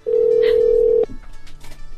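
A single steady electronic telephone tone, held for about a second before cutting off abruptly, then faint background noise; placed while phoning a fast-food restaurant over a customer's complaint.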